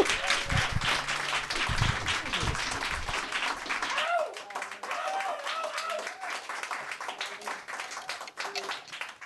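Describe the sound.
An audience applauds the first act at a live show with dense, steady clapping. Voices mix in and carry on as the clapping thins partway through.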